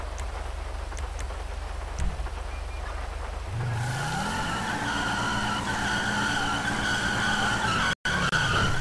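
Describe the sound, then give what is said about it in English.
Tires skid as a car drifts in an online freeroam driving game. A loud continuous screech runs over engine drone, the engine tone climbs partway through, and the sound cuts out briefly near the end. “Did I just do a drift? I thought that was supposed to be disabled. I guess it is enabled.”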